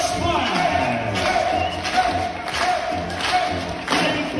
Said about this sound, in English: If you're wondering about the crowd noises, they're from Mark's job.